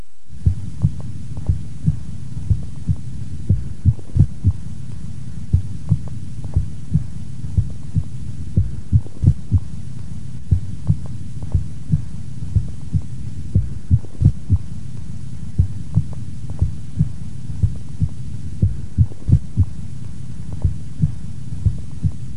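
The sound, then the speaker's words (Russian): A heartbeat with single premature extrasystoles followed by a compensatory pause: many dull, low thuds over a soft steady hum, mostly in a regular rhythm. “на фоне правильного ритма слышны одиночные преждевременные сокращения сердца, после которых следует компенсаторная пауза. В момент экстрасистолы можно определить усиление первого тона по сравнению с предшествующими циклами.”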